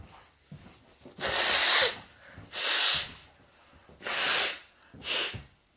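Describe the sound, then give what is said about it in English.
Nose blowing: four loud, rough bursts of breathy hiss, each a second or less long, with short pauses between them. The last blow is shorter and weaker, and no one speaks. “Oh, hold on. I ain't blow my goddamn nose.”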